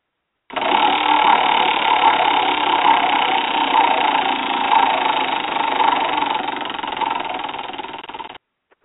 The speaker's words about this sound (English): spin the wheel